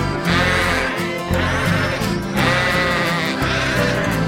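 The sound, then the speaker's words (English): Sheep bleating: a run of loud, wavering, nasal bleats, each lasting about a second, following one another with barely a pause. “that is what sheep say.”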